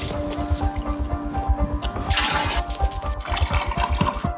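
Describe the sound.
Water splashes and squelches during washing with a limited supply of 25 litres. Quick, irregular wet pulses run throughout, with a louder gush near the middle.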